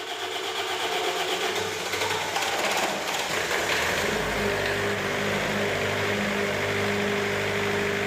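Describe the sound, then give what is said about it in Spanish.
A diesel generator starts up during an emergency power-cut drill at a lighthouse. A loud, steady wash of machine noise runs throughout, and a low engine hum settles in about halfway through. “Automáticamente, ten que acenderse o xerador de gasóleo.”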